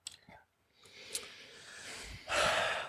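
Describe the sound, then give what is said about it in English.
Two people draw deep breaths at the same moment, a soft airy rush of breathing that swells into a louder, hissing inhale near the end, with no talk. “Damn, two deep breaths at the same time.”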